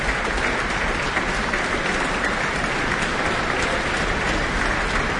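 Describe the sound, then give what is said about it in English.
An audience applauds after a live orchestral performance as the flute soloist returns to the stage. The clapping is dense, loud and unbroken, holding steady from start to finish without any voices. “is back on stage now, basking in the applause.”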